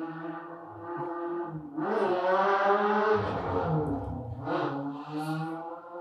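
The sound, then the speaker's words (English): A motorcycle revs outside an apartment, its engine a buzzing harmonic drone that swells with throttle bursts, dips and surges again. “Someone with a really fucking small dick just ran his motorcycle outside my apartment.”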